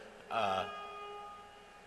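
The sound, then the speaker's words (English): A phone ringtone goes off loudly: a short, bright, melodic burst lasting about half a second. Its tones linger faintly for a moment afterward, and no one talks over it. “Whose ringtone is that? Who's got their phone up that loud?”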